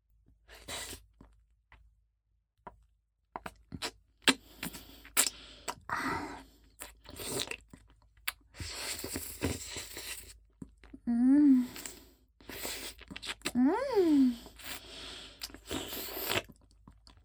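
Eating a cream-filled treat with extra cream: faint, soft crunching and chewing in scattered bursts, with a couple of short tonal sounds partway through and quiet gaps between bites.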